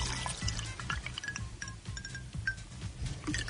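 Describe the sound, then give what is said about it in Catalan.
Water poured into a glass that holds a store-bought ice cube: a faint, continuous trickling pour with small splashes and light drips. “Jo omplo aquest got”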